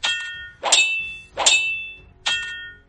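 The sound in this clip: Sabers clang as their blades strike in a fight. Four loud, ringing metallic hits come at roughly even intervals, and each one decays with a bright shimmer.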